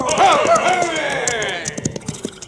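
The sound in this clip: Hoofbeats of a posse's horses riding past along a canyon trail: a run of quick clip-clops in the latter half, following a louder sustained tonal opening.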